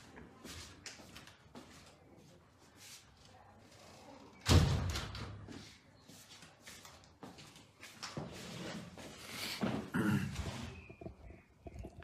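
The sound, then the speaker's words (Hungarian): A window is shut with a single solid thump partway through, rising briefly above faint rustling and low background noise. “Egy pillanat türelmet kérek, most becsukom az ablakot.”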